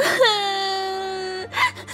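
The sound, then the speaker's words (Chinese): Crying from a person crouched on a street in the rain after tossing aside an umbrella: one long, high, sustained wail that breaks and dips at its start, followed by a short, shaky sob. “张张索性扔掉雨伞，蹲在大街上再没形象地哭了起来”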